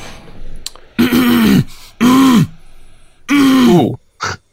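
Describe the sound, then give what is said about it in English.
A person clears their throat three times, each a loud, gravelly, voiced rasp with a falling pitch, followed by a short final burst. “Hey, that's vintage. That's the throat clear. I love that.”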